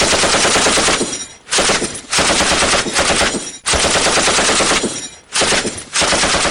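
Machine-gun fire in wartime along the Jammu and Kashmir border: loud, continuous rattling bursts that run for several seconds each, broken by a few brief pauses, with no voices.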